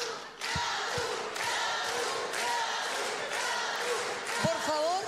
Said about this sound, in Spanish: Escucha tu hermoso público del lado de allá. ¿Qué dicen por allá? Es una fiesta esto.